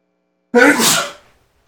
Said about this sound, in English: I have to sneeze again.